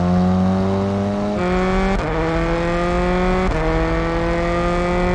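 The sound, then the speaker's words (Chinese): Race car with an electric turbo accelerating: a loud, continuous engine roar that climbs steadily in pitch, broken by a few sharp gear shifts where the note drops before rising again. “新赛车如何？ 这车下来力可以啊，可比第一代强太多了。电涡轮来得真快，这套性能太适合南线了。”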